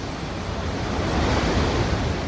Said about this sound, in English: The strength, the waves are too strong for the seawall.